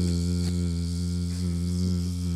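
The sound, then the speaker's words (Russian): Continuous droning buzz of a mosquito, a steady, even whine that holds at constant loudness throughout, with no voices. “Ты поймал комара и посадил его, да?”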